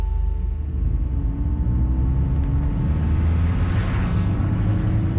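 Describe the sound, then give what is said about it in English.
A steady, low road-and-engine rumble from a car driving along a freeway between Los Angeles and Long Beach, California. The drone is continuous with a faint tonal hum, stays even in level throughout and carries no talk. “I'm driving down the freeway from my house in LA to the satellite city of Long Beach, California.”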